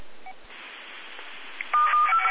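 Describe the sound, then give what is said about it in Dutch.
Telephone keypad dialing tones: a few short, bright dual-tone beeps in quick succession near the end, after a steady hiss. “Mag ik je nog even bellen, Hans?”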